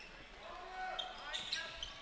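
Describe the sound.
Basketball dribbled on an indoor court during a game: a few faint, dull bounces over quiet court ambience.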